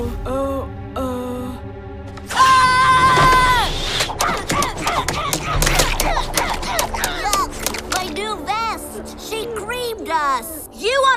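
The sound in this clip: Cartoon gunfire follows a shouted order to open fire: a rapid burst of sharp cracks amid shouting voices and whistling tones, then bouncing, warbling pitches.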